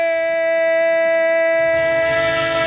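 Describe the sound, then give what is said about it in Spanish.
Train sound effect used as a radio sports segment jingle: a loud, sustained horn chord with several steady tones, ringing continuously with rail rumble underneath. “¡El tren de Radio Estadio! El tren de la pura competición”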